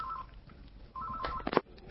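Telephone ring tone of an incoming call to a radio studio: a steady mid-pitched tone sounds twice, the first short and the second longer, followed by a few sharp clicks.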